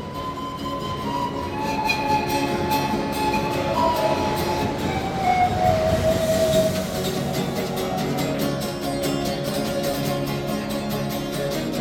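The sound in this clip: A subway train pulls out of a station with a loud, steady rumble and roar, faint high metallic whines drifting through it, and a rhythmic clatter growing in the second half.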